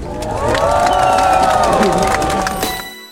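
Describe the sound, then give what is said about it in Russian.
Crowd cheering at the ceremonial lighting of the Moscow torch for the relay of the 11th Winter Paralympic Games, a loud sustained roar of voices with raised shouts that swells early, holds, then fades at the end. “Участники церемонии радостно приветствовали зажжение московского факела 11-х зимних Паралимпийских игр в Сочи.”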